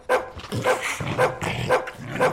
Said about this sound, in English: This dog is real slobbery. Yes, it's very slobbery.